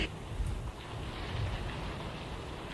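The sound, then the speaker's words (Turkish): Rain falls in a dense, even hiss that stays roughly level throughout, with no voices over it. “Bakın bakın, Ahmet başını hırkadan çıkarınca yağmur azaldı.”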